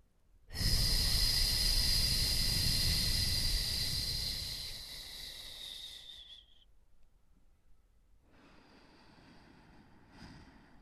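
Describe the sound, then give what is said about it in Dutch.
Relaxed belly breathing: a long, strong breath out that lasts several seconds and slowly fades, then after a short pause a softer, quieter breath in. No talking. “Dit kan je doen door de buik en de bekken na het uitademen te ontspannen. Dan kan de buik zich uitzetten om een inademing tevoorschijn te toveren. Ik doe hem één keer voor.”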